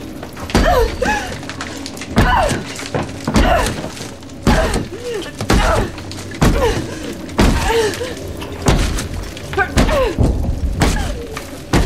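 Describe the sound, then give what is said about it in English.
A solid metal pipe is slammed again and again against a mouldy wall until it breaks through. Heavy, cracking blows land at a fairly regular pace, roughly one every second, each with a brittle, shattering edge. “She begins to slam it against the mouldy wall, breaking through.”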